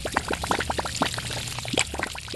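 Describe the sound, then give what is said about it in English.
Soapy washing-machine water pours out of a black drain tube outside during the spin cycle, a fairly soft, continuous gushing splash broken by irregular spurts and sputters. “The spin cycle has started, and the soapy water has traveled from the washer through a pipe and now is shooting out of a black tube outside.”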